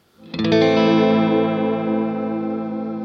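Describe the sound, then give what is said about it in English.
A single strummed electric guitar chord through a modulation effect with the mix turned up, giving a shimmering, chorus-like wash that rings on and slowly fades, with no talk. “I'm going to pop on the modulation, same setting. Let's just hear what that sounds like.”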